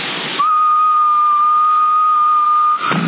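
A steady whistled tone sent into a CB radio microphone during a transmitter power check, held at one even pitch for about two and a half seconds over band-limited radio hiss.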